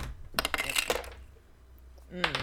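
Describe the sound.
Dice roll during a tabletop role-playing game, a quick burst of light, clattering clicks that settles within about half a second. A voice speaks briefly at the end.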